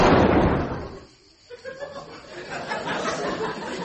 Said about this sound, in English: Sergeant Estelle just shot Jack Nicholson.